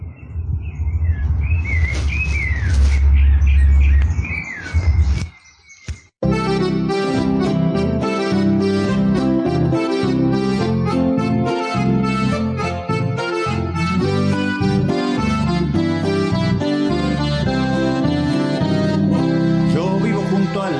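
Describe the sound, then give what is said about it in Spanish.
Birds calling with quick, bright chirps and warbles over a low rumble for the first five seconds. The calls cut off abruptly and loud music takes over for the rest. “Acá están los demás pájaros que los están saludando a Juan Carlos Chévez”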